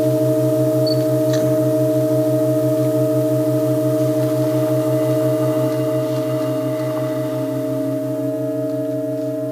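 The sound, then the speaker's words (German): A sustained seven-note organ chord from the John Cage piece performed in Halberstadt holds steady and unchanging, loud and continuous, its low tones pulsing gently beneath the higher notes. “Ein hinzugefügtes gestrichenes A wird erweitert in einem hörbaren Tonklang von einem 7 hin zu einem 8-Tonklang. Beim letzten Mal klang das so.”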